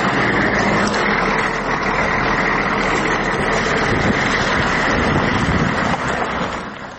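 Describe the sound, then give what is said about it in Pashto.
A private car drives along an unpaved dirt road toward a war front line. Steady, loud rumbling engine and road noise continues throughout with wind buffeting, and no voices are heard. “موږ د خپل شخصي موټر په واسطه د نادلي ګروپ شاش ته پر غځېدلي خامه سړک د جنگ لومړۍ کرښې ته ځو”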